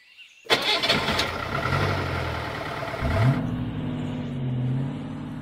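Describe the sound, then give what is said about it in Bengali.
A car engine starts abruptly and runs loud and steady as the car drives away, its low droning hum swelling into a brief rev partway through before settling back to an even run. “এই বলে সে গাড়ি নিয়ে চলে গেল”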